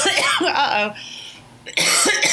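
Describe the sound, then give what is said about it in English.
A person coughs in two harsh, raspy bursts separated by a brief quieter gap, loud and close, with a voiced, throaty quality. “Corona cough.”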